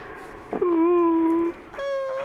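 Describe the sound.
A person imitates a small child crying with two sustained, steady-pitched wailing cries. The first is longer, and the second follows a brief pause and runs to the end.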